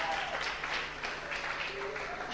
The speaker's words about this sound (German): Sie haben jetzt geklatscht für nichts. They were clapping for nothing.